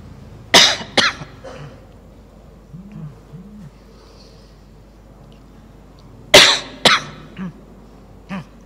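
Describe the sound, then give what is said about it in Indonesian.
A lecturer whose voice is giving out coughs during a philosophy lecture: two loud coughs, a long quiet pause with faint murmuring, then another burst of two strong coughs followed by weaker ones. “Batuk.”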